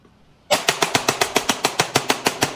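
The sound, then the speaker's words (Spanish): A pistol fires in burst mode: a rapid, evenly spaced string of many sharp, loud shots. The burst starts abruptly after a short near-silent moment and continues to the end. “Es pistola en ráfaga. Pistola en ráfaga.”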